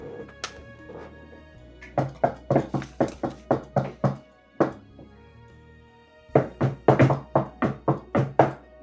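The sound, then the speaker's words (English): A society's secret knock: a patterned rhythm of sharp knocks, with a couple of early raps and then a long, quick, even run. After a short pause comes a second fast burst, with no talk. “what's your secret knock? Well, no, the society's secret knock.”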